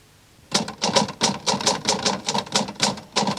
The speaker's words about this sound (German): Sie tippt.